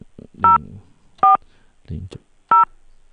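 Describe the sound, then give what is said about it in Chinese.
Telephone keypad tones as a phone number is entered on an automated service line: three short, steady electronic beeps at uneven intervals. Faint low murmurs sit between them. “09079，输入完了，按井结束，就把您的手机号输进去了。”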